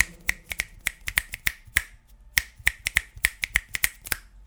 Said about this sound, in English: That was me snapping my fingers.